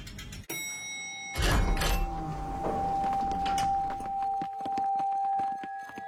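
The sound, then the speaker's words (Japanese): An elevator in a fantasy tower starts with a sharp thunk, then a heavy rumbling whoosh, and settles into a steady mechanical hum with faint clicks. “エレベーター。いかにもファンタジーな塔なのに。 階段じゃなくてよかったよ。”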